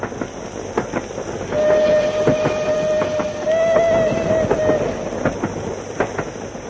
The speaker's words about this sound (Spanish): El tren nos lleva a Rostocki